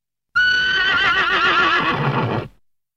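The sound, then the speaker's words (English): A horse neighs once in a single long whinny of about two seconds, heard alone. The call is loud and wavering, then fades quickly at the end. “Horse.”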